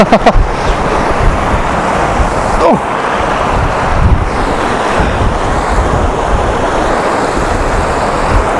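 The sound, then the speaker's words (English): Strong wind blasts across an exposed coast with surf roaring beneath it. The wind buffets the microphone in loud, continuous gusts throughout, and the rush never lets up. “This is right in the path of the wind.”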